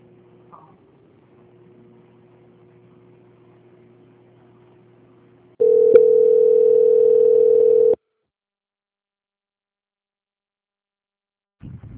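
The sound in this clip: Telephone line tone while a bank call is transferred to quality control: a faint low hum, then a loud, steady single-pitch tone for about two seconds, cut off into silence, with a brief soft noise at the end.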